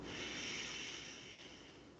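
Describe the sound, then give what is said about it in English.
A deep breath is drawn in during a guided breathing exercise, heard as a soft, steady, airy hiss lasting about two seconds. It is faint and alone, easing slightly toward the end. “So let's take a nice inhale”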